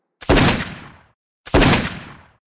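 Two single rifle shots from an M2 fired one at a time during aimed target practice. Each is a loud, sharp crack with a decaying tail, and the two are spaced just over a second apart.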